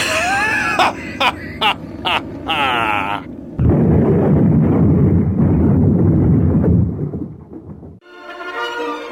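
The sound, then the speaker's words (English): A rocket ship crashing into a planet as a radio drama sound effect, a loud, sustained roaring rumble lasting several seconds, preceded by other sounds and followed by speech. “The rocket ship hits the planet. Dr. Zarkov and Dale are thrown from the rocket ship unconscious.”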